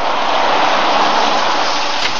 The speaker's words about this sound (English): It was a dark night, very windy and raining hard as we pulled up the dirt road to the house.